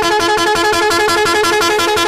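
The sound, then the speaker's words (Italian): A long car horn blast from someone's own car, loud and unbroken, its bright, buzzy tone held steady from start to finish. “Il clacson lungo. È quello tuo, è quello della tua macchina”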